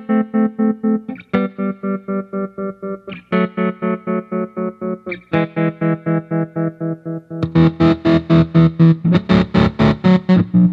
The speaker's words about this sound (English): I have it set on like a square wave. And if you turn the depth way up and use the tap, you can do some really cool like gated sounding stuff.